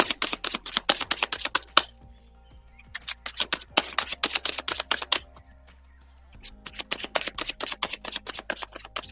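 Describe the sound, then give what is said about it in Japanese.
Oracle cards being shuffled and handled, with quick papery riffles and flicks in three bursts separated by short pauses, over a faint low hum. “それではオラクルカードを引いていきますね。”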